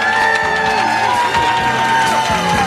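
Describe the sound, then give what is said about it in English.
A studio audience cheering on cue, with shouts and whoops over a continuous crowd roar, loud and sustained, with music playing underneath. “All right, gang, this is your cue now. In 3, 2, 1, let's hear it from our studio audience.”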